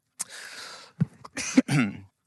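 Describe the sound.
Throat clearing and coughing close to a microphone: a rasping clearing followed by a few short, sharp bursts and a final rough cough, fairly soft and without speech.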